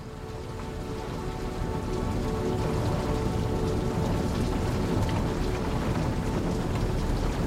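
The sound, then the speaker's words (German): Heavy rain pours down outside in a steady, dense pattering that grows a little louder in the first moments, then holds constant without pause. “Draußen prasselt der Regen.”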